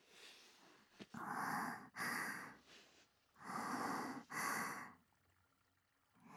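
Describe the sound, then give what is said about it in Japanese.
Close-up sniffing by a single person, four long, airy draws of breath in two back-to-back pairs separated by a pause, soft and intimate with no talking. “間近で嗅ぎたいって。呆れないでくださいね。ちょっとだけですから。”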